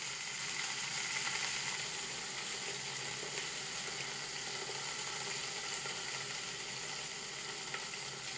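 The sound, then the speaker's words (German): Beef rouladen, held with skewers, sear in a hot pot with a continuous hissing sizzle that stays even and fairly faint throughout, with no break or voices. “Mit Spieß versehen bräunt Bastian die Rouladen im heißen Topf fresh an, damit sich rundum Röstaromen bilden.”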